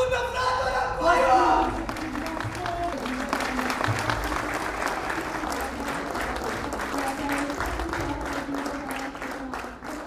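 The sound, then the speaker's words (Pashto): A theatre audience in Kabul applauds in a dense, steady clatter of many clapping hands, with a voice talking over it throughout. “د کابل نندارې فضا یو ځل بیا د پخوانیو کلونو په شان د نندارچیانو چکچکو او شور په سر اخیستې وه.”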